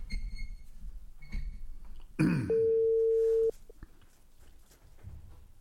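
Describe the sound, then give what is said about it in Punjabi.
Telephone call tone: a single steady mid-pitched beep lasting about a second, just after a short rough burst, with low background noise around it. “ਜੀ ਮੈਂ ਕਾਲ ਉਹਨਾਂ ਨੂੰ ਕਰ ਦਿੱਤੀ ਹੈ।”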